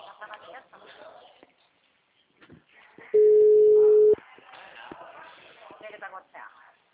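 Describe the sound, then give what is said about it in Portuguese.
A telephone ringing tone sounds as one steady, loud, mid-pitched beep lasting about a second, with people talking before and after it. “Uma ligação.”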